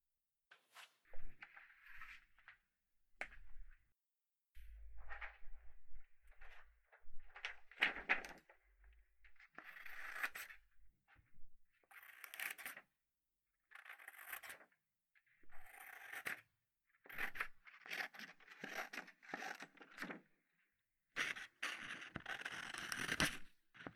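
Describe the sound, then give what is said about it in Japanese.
Scissors cut through drawing paper in many crisp, quiet snips and rustles. The snips come in short clusters separated by brief pauses, with no voices. “実際に画用紙を切る音なんかも好きな人がいるね。こういう感じの。”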